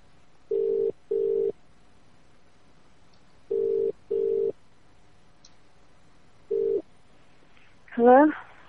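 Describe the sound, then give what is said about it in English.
Telephone ringback tone heard over a phone call: steady mid-pitched beeps in two paired bursts, then a single beep, before a voice answers. “Is it ringing? I don't know. There you go.”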